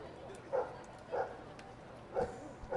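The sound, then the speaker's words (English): Dogs barking in the crowd at a baseball stadium: a few short, faint barks rise at intervals above a steady murmur of crowd noise. “I think Marty the Marauder on the first base side is egging on some of the dogs in the crowd here. Those dogs are saying, what is this giant black and white fuzzy guy doing looking at me?”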